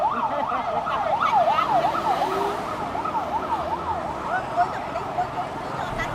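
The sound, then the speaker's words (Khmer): Sirens of prison vehicles carrying prisoners to court along a boulevard, a rapid rising-and-falling electronic warble that later settles into a steadier wail over a low rumble of road traffic. “រថយន្តពន្ធនាគារព្រៃសរបានដឹកអ្នកទោសចូលតុលាការដោយផ្សារត្រីធ្វើឲ្យមហាវិថីសាដវុលព្រឹកនេះលាន់ឮសំឡេងសារ៉ែនយ៉ាងក្រហឹម”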